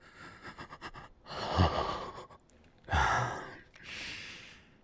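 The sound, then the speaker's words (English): Hot, heavy breathing right up against the microphone: a few slow, breathy exhales and sighs in loose succession, airy and loud, with no talk. “Do you like my hot breath? Right up against here.”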